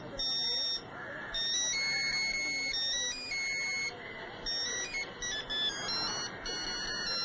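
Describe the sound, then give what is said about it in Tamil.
A phone ringtone plays patriotic music as a bright electronic melody of sustained high tones, sounding continuously with brief shifts between notes. “என்னடா இவசில இருந்து மட்டும் வித்தியாசமான sound வருதுன்னு பாக்குறீங்களா? இது சாதாரண சவுண்ட் இல்ல, தேசபக்தி மியூசிக்.”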